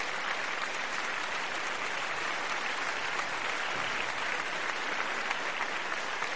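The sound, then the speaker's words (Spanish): Audience applause welcoming a performer to the stage: a dense, even wash of many hands clapping, loud and sustained without a break. “Y con el aplauso de ustedes, recibamos a Luigi Texidor.”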